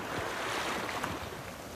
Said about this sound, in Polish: Wsłuchajcie się w delikatną muzykę fal.